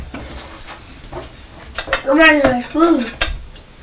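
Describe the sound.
Metal forks clattering together in a few sharp clinks and knocks, with a voice heard briefly over part of the clatter.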